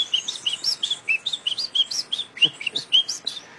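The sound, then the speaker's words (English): Wren song from a wood wren in the forest: a rapid, lively run of many short, high, clear chirping notes, repeated one after another with little pause and fairly loud throughout. “That's a wren? That would be like a wood wren in the forest.”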